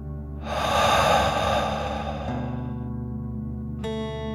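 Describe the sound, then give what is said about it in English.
A slow, deep breath is drawn in and let out during a calming breathing exercise. It sounds as one long, soft, airy rush that swells and fades over sustained gentle musical tones. “Deep breath in and out.”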